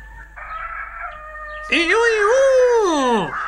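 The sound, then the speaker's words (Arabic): A rooster crows loudly in one long, strained call that wavers and then falls away in pitch at the end, after a softer, steady tone. “وفي هذه الأثناء عاد ديك وبصحبته أرنو، ولما شاهد بنفسه ما يجري صاح وقال”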